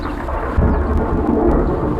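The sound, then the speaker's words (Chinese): Low thunder rumbles steadily outside in a gathering storm, a deep rolling roar with a slight swell just past the midpoint, continuous and fairly loud for about two seconds. “俺看外面现在打雷打闪的，恐怕要下雨了。”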